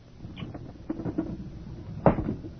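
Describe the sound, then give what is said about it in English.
A window is pushed open wider with a short, sharp wooden knock and scrape near the end, preceded by faint, scattered rattles. “Open the window wider.”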